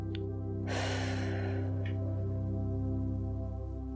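A person breathes in slowly during a guided relaxation exercise, a soft airy rush over a steady low musical drone, with brief faint breaths just before and after it.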